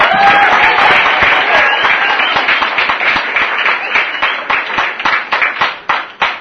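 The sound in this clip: Applause welcomes the main speaker at an evening meeting: sustained, dense clapping from a crowd, with single claps standing out more sharply as it thins toward the end.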